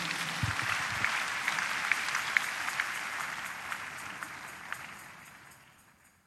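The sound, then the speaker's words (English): A church audience applauds in a steady wash of clapping, with a few sharper claps poking through before the applause thins and fades away toward the end. “Please put your hands together for Jesus.”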